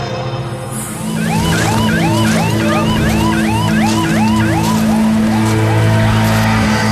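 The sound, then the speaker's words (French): Ambulance and police sirens wail as emergency vehicles arrive at an emergency scene where firefighters are at work. The sirens make repeated rising and falling sweeps over a steady, loud low engine and traffic rumble. “Le ambulance arrive, la police est là, même les forces spéciales qui sont là.”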